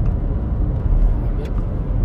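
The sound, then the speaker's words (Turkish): A cement mixer truck passes on the road with a heavy, low rumble blended into steady traffic noise, while people talk over it. “Bu ne? Çimento arabası mı?”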